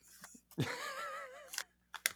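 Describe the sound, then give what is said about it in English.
A sticky note is torn off its pad and folded in half, making a few quiet, crisp papery rips and crackles with short gaps between them. “Let me grab a post-it note. Hold on. There you go. Make sure you fold it in half”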